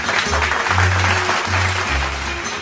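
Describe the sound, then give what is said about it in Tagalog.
Students applauding themselves after a class lesson, a steady, dense patter of clapping hands that continues evenly throughout. “Binabati ko kayo Palakpakan ang inyong mga sarili.”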